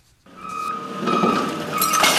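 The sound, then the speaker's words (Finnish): A garbage truck tips its load at a waste processing plant in Des Moines, Iowa: a steady high mechanical whine over a broad rushing rumble of spilling refuse that builds and stays loud. “Jäteauto kippaa kuormallisen jätteenkäsittelylaitokselle Des Moinesissa, Iowassa.”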